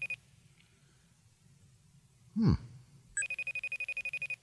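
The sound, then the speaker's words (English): Faint FaceTime call ringing: a brief swooping sound, then a rapid string of bright, evenly pulsed electronic tones. “Go on FaceTime, it sounds like.”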